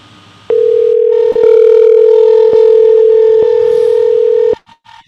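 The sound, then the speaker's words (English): A telephone line gives a loud, steady single-pitch tone that holds for about four seconds and then cuts off abruptly. A couple of faint clicks follow. “Dialing a number? Thought I already was.”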